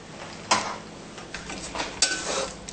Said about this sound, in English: Together with this vegan sausage. Yeah, stir it golden.